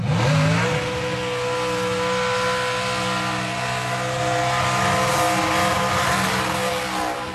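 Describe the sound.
Race car engines rev loudly during drag racing and burnouts at a motor event in Alice Springs, producing a dense, continuous, roaring drone with a rising whine at the start that holds steady throughout.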